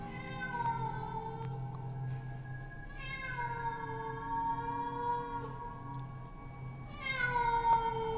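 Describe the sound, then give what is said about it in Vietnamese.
A pack of wild cats in the forest meows loudly, giving several long, wavering, high-pitched cries that overlap and rise again near the end, over a low background hum. “thay vào đó là bầy mèo hoang ở trên rừng đang kêu lên inh ỏi. Một lúc tiếng mèo kêu bắt đầu nhiều hơn”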